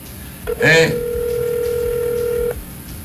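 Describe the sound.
A steady two-note telephone tone sounds while a call is being placed, lasting about two seconds before it cuts off. A brief voice is heard near its start.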